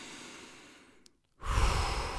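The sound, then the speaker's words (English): A soft breath fades out into a moment of near silence, then a deep inhale through the nose arrives as a loud, airy rush that holds steady to the end. “This time I'll try not to talk. In through the nose.”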